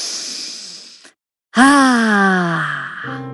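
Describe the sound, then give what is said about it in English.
A deep breath drawn in through car windows rolled down to pine-scented air: a breathy rush for about a second, then a short silence and a long voiced sigh whose pitch slowly falls. “Now, why don't you roll down the windows and take a deep breath?”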